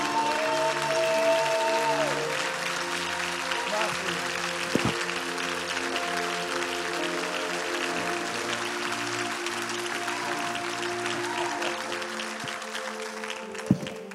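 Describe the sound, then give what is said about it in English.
A church audience applauds in long, steady clapping that lasts the whole clip and never breaks, with sustained musical tones underneath. “Would you one more time give the Lord a good hand?”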